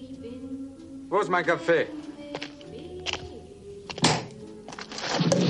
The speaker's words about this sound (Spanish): Mallory le disparó por la espalda, abatiéndolo.